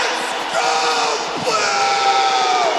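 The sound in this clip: A large hockey crowd chanting "Let's Go Blues" for the St. Louis Blues, a loud, dense, sustained wall of many voices shouting together without a break.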